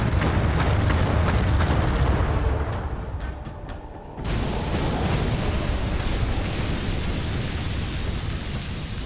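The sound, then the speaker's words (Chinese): Naval gunfire and shell explosions from the video game Battle Stations: Midway during a Battle of the Java Sea mission: a loud, continuous rumbling wash of blasts that dips briefly midway and then surges back with no voices. “他开炮了，有命中，好的，再来， 鱼雷先发掉，他转向了。”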